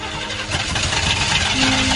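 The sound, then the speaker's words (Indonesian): A car engine cranks but fails to start; the car has overheated because its radiator water ran out. A loud, continuous, rough mechanical churning holds steady throughout. “mobilnya tetap tidak menyala. Mogok ya, ayah?”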